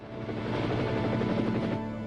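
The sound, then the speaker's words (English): A military helicopter landing gives a steady, loud drone of rotor and engine noise, a low throbbing hum that holds even throughout with no voices. “A military helicopter lands, and the Kennedys emerge.”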